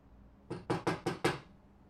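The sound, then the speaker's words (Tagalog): Knuckles rap on an office door five times in a quick, even sequence, each knock sharp and fairly loud, with quiet before and after. “Kumakatok sa opisina ni Pat ang investigador.”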